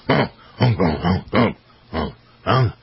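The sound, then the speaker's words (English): A person imitates a big, fat old pig with several short, throaty, nasal oinks in an uneven rhythm, with brief pauses between the grunts. The voice is fairly loud, with no other sounds around it. “That's the way the pig sounds. Yeah, that's the way that pig sounded anyway.”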